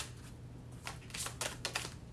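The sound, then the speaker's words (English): Cards being shuffled during a card reading, with cards flying loose. A few quick, faint papery flicks and riffles come in short bursts with no talk. “It's like every time these cards just fly everywhere.”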